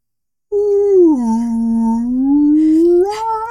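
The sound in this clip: A voice imitates a brachiosaurus cry: one long, low, moaning howl after a brief silence. It sags in pitch early, then slowly climbs back up as it holds.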